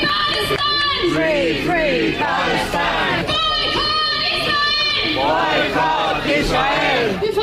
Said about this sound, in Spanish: Protestas pro-palestinas, ¿no? Free Palestine, escuchábamos.